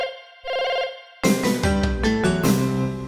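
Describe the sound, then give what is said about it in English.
Telephone dialing and ringing: a brief steady tone, followed by a louder, continuous ringing with shifting tones that lasts to the end. “He's dialing.”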